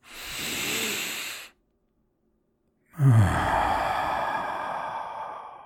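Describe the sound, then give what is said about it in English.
Deep breaths taken during a calming breathing exercise: a steady breathy breath, a pause of silence, then a second, longer and louder breath that holds steady to the end. “I want you to take a deep breath in with me.”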